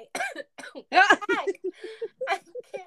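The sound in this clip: A person coughs in a few short, harsh bursts, some with a rough voiced edge, separated by brief pauses.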